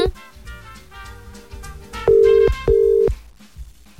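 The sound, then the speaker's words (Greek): Ringback tone of an outgoing telephone call placed live on a Greek morning radio show to deliver a good-morning message: two loud, steady mid-pitched tone bursts, each about half a second, over a quieter, softer background. “Καλούμε την Κωνσταντίνα από τον Δημήτρη για μια όμορφη καλημέρα.”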